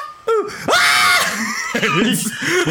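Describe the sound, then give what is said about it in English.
A voice imitates a famous stock scream of a woman: a short sharp yelp, then a long, loud, wavering high-pitched scream that trails into quieter strained vocal sounds. “That's like a famous stock scream, where, like, I would hear that in Edda and Eddie and, like, Billy and Mandy all the time.”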